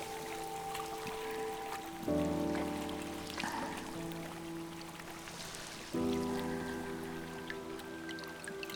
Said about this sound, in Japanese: いい音でしょう。川のせせらぎ、